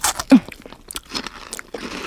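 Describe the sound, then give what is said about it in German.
Crunching bites into a crisp star-shaped biscuit sprinkled with a sparkly topping: a sharp loud crunch near the start, then a few softer crunchy chewing bursts. “Oh, der funkelt ja richtig, der Keks. Oh, den muss ich probieren.”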